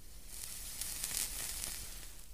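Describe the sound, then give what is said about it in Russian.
Steady crackling sizzle of a cigarette tip glowing as a smoker draws deeply on it: a faint, even hiss speckled with tiny pops, with no voices. “Я смотрю, как сложенные галочкой пальцы поднимаются к его рту и как округлый кончик сигареты с шипением покрывается магмой.”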